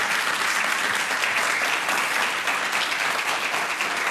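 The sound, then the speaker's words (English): An audience applauds warmly as a guest speaker is welcomed onstage. The clapping is loud, even and continuous, with no break or swell throughout. “Please give a warm welcome to Martha Raddatz, and congratulations on your new book.”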